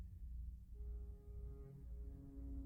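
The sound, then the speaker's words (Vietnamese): A train whistle sounds as a faint, steady tonal blast. It enters after a short moment over a low rumble and holds to the end. “Tiếng còi tàu chợt vang lên lanh lảnh, xé tan buổi chiều thu hiu hắt.”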